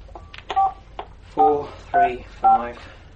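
Touch-tone beeps of a telephone number being dialed: a few short, distinct electronic tones at an even pace, each a clear steady pitch, with short gaps between them.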